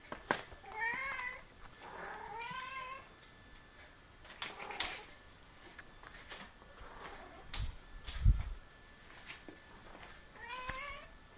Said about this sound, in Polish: I jak słychać, kot sobie poszedł, nie mruczy, ale dał nam za to pokaz wokalny, a to mu się często zdarza